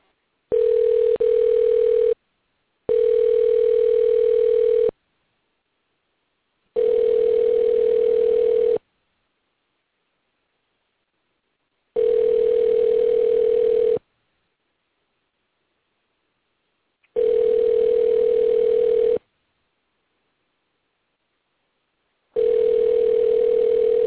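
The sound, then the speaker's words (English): A phone call placed from a studio produces six steady mid-pitched tone bursts, each about two seconds long. The first two come close together, then longer silent pauses follow, and the last burst is cut off. “We type in a number, again, technology, and then I just click dial. And we're going to listen to the call being placed.”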